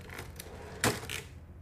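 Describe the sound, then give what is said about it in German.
Keys strike on a typewriter as a man types a report at a desk. A few faint, sparse clicks surround one sharper, louder strike, all quiet against a soft background. “Der Mann tippt alles säuberlich in die Schreibmaschine.”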